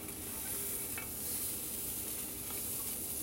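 A thick Japanese rolled omelette fries in a pan with a steady, soft sizzling hiss and faint scraping from stirring, continuous throughout with no talking.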